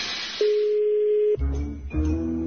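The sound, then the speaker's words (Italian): A telephone call to a customer service line in Ponte Felcino is being placed: a steady, unbroken line tone holds for about a second, then gives way to lower, buzzier tones that continue to the end. “ha chiamato il servizio clienti di Pagine Italiane di Ponte Felcino. Primo tentativo!”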